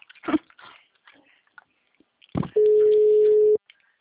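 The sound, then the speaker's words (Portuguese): A telephone busy tone after a dropped call: a single steady, mid-pitched tone lasting about a second. It follows a few faint clicks and handling noises and cuts off abruptly. “a ligação caiu, desculpa.”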